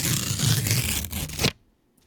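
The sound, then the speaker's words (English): Paper check being torn: one continuous rasping rip lasting about a second and a half, then an abrupt stop into near silence. “All right, final word, Jeff, after I tear this check one more time.”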